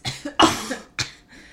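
A person with a cold and phlegm in the throat coughs four sharp, hacking times in an uneven rhythm, the third cough the loudest, followed by a fainter breathy sound.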